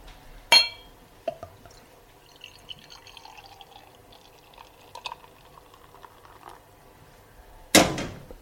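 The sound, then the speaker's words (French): Beer tasting glass being rinsed at a brewery: a couple of sharp watery splashes at the start and end, with faint drips and small clinks scattered in the quiet between. “Ah il faut rincer le verre.”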